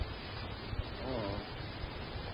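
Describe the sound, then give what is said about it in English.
Storm wind blows outside a window, a steady, dense rushing roar with low rumbling gusts that holds at an even level throughout. “Well, we'd better close that window and fasten the shutter. The place is like a nice house. It won't stay closed. Not in a storm like this.”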